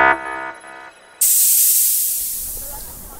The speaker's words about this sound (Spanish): Abriendo compuertas.